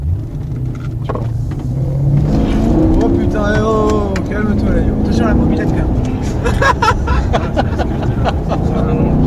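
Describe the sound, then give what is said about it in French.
Car engine revving with sport mode engaged, letting the throttle open more freely. A deep continuous rumble with a rising whine near the middle, followed by a run of short sharp bursts, all fairly loud. “T'as l'option sport, là. Donc, en fait, ça lâche les gaz, en fait, beaucoup plus.”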